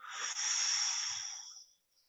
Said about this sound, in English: Take a nice breath.